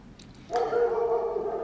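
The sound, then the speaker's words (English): A dog barks in a neighbouring garden, giving a single drawn-out, tonal bark or whine that holds steady for about a second, faint against a quiet background. “That's a dog from a different garden.”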